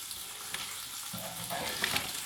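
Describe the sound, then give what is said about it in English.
Tomato halves frying in a pan with speck give a steady, soft sizzling hiss that grows slightly fuller in the second half, with a couple of faint sharp ticks near the end. “I will do that in the pan with the speck, because this is going quite quick.”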